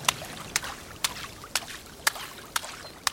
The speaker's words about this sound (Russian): Фред на берегу бассейна плещется в воде.